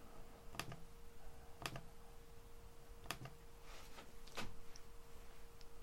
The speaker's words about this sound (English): I'll click on number two and I'll highlight and copy that one.